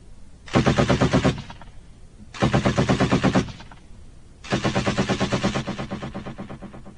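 Rapid gunfire from a firing squad executing prisoners lined up in a row in wartime, heard as three loud bursts of fast shots separated by short pauses, the last burst running longest and tapering off.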